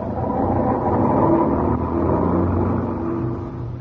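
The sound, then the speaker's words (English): A car engine roars as the vehicle drives off and accelerates, with a loud, steady rumble over about four seconds and no voices. “Now, move over and let me drive. Get going,”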